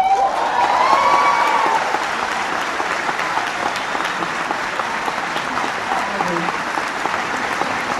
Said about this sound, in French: Roman Polanski, acclamé par le public d'Auville, garde le triomphe modeste.